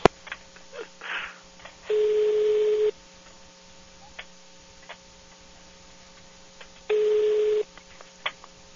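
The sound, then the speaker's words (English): Ringback tone of an outgoing telephone call: two steady buzzing rings separated by a long pause, with faint clicks and ticks on the line between them, no voices. “Answer the phone, woman.”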